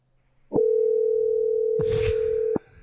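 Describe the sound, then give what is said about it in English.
A telephone ringback tone while a call goes out: a single steady, mid-pitched tone that holds for about two seconds and then cuts off, with a short rustling noise near its end. “Let's see if we can call back. All right, calling.”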